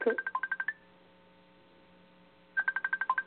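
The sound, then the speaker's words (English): Telephone keypad tones dialing an international number that begins with 1: two fast runs of short beeping tones with different pitches, separated by a quiet stretch of low line hum. “Okay, dial 1, right? And then would you go and dial 1 and it's 215?”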